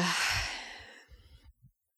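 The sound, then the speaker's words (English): A deep breath drawn in through the nose and let out through the mouth during a breathing exercise. It is one long, airy rush that fades over about a second and a half, followed by a few soft, low puffs. “Inhaling really deep in through your nose. And exhaling through the mouth.”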